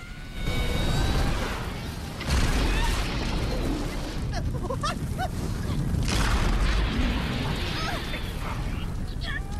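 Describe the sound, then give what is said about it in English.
Volcanic eruption in an animated underground cave scene: a loud, dense rumbling roar with heavy bursts near the start and around two seconds, continuing as a sustained boom with crackling debris. “A volcanic eruption sends them hurtling upwards like a rocket towards the ceiling of the underground world.”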